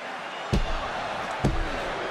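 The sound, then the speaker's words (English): A wrestler's chokeslam drives an opponent onto the ring at a professional wrestling event. Two heavy thuds stand out over steady crowd noise. “Choke slam.”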